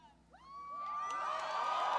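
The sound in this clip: Supporters cheer and whoop at an Obama rally for a crowd of Cyclones. A high whistle-like call rises out of near quiet, then the cheering swells into a broad, rising roar that keeps building to the end.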